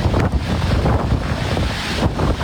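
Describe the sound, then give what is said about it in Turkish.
Tornado wind striking the Italian island of Sicily roars as a loud, constant rush of buffeting gusts with heavy low rumble, unbroken from start to end. “İtalya'nın Sicilya adasına hortum vurdu.”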